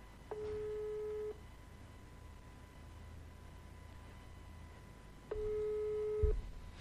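Telephone busy signal after a call to the president was cut off: two steady mid-pitched beeps, each about a second long, separated by roughly four seconds of quiet line hiss.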